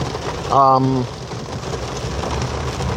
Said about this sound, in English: In case you can't hear, it is raining.